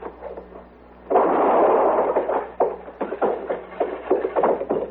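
A gunshot in a western radio drama: one sudden, loud report with a rough, sustained tail, followed by several fainter thumps and knocks over a low steady hum.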